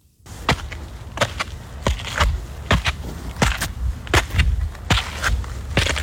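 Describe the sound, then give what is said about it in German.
Footsteps climb the Himmelsleiter stairs up the Königsstuhl in Heidelberg, with many firm, evenly paced thuds and scuffs following one another in a steady rhythm. “Du gehst einen mit Treppen bestückten Berg rauf und ich würde sagen, das klingt so, als wenn der Berg in Heidelberg wäre.”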